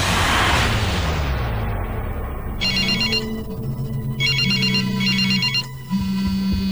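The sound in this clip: Telephone ringing on a scene's phone, a warbling electronic ring in three short bursts over a steady low hum, following a loud swelling noise at the start that fades away.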